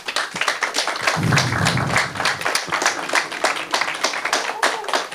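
An audience at a blind association's meeting claps: many hands strike in a rapid, dense patter that holds a fairly steady loudness with slight swells from start to finish.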